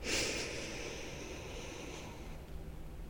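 A deep inhalation through the nose during a guided breathing exercise at a wellness retreat, heard as a soft, steady, airy rush lasting about three seconds, quiet and with no talking.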